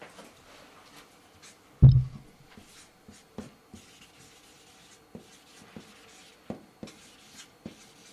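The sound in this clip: Faint scratching of writing on paper: soft, irregular ticks and rubbing strokes, with one louder thump near the start and no voices.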